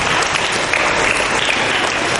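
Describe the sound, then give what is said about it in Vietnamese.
Loud, dense applause from a group at a Christmas gathering, given as a round of clapping for a child. The claps form a steady, unbroken roar that holds level throughout. “Rồi, cho một tràng pháo tay con hơn tất cả các bạn.”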